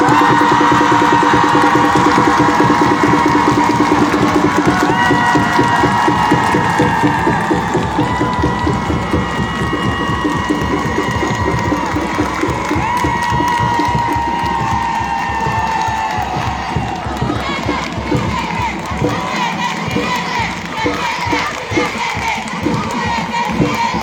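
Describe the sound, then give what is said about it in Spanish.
A large crowd at a public assembly in Jujuy cheers, shouts and chants in support of a second venue proposal, with dense clapping under the voices; loud and sustained for the whole stretch, easing slightly toward the end. “También aplauden quienes están de acuerdo con esta segunda propuesta.”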